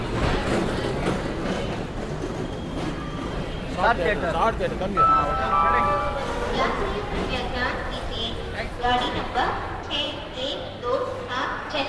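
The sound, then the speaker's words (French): Busy ambience at Chennai Central railway station, with many voices talking at once, children among them, over a steady background hum. “Chennai, la gare centrale.”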